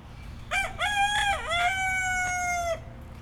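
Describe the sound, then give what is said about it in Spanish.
A rooster crows once, a long, loud cock-a-doodle-doo that dips briefly partway through, then holds a drawn-out final note before cutting off. No voices are heard. “Cantan los kikis en ese paisaje, es precioso. ¿Echan kikis, dijiste? ¿Ese que canta? Ese es un kiki. Es un gallo.”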